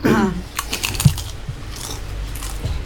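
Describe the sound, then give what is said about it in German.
Mouth smacking from someone eating, as a string of small, wet clicks and smacks at an irregular rhythm. It opens with a brief voiced sound. “Ein graziles Schmatzen.”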